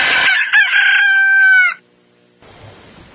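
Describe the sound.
A rooster crows once, a loud ringing call lasting under two seconds, then a short silence and a faint hiss.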